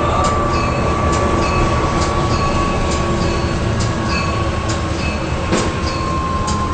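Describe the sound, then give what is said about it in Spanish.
A passing train rumbles steadily, with a faint, regular clickety-clack of wheels and a thin, sustained high squeal held over the loud, continuous roar. “Ah, es el tren, este es el tren, ¿no? Ahí lo tiene, ahí lo tiene, este es el tren.”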